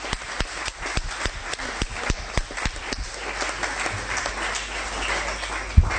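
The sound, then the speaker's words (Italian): Audience applause at an event promoting tourism to Israel, thanking a guest airline director: many distinct, crisp claps at a quick, uneven pace, holding a fairly steady level throughout. “Facciamo un applauso.”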